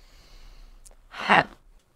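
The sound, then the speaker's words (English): A single deep breath: one soft, rushing burst of air lasting about half a second, heard alone over a faint background hiss. “So we take a deep breath.”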